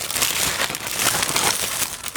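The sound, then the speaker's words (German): Steady crinkling rustle, like material being crumpled, loud and continuous through the whole clip with no voices. “Es raschelt, mach nichts.”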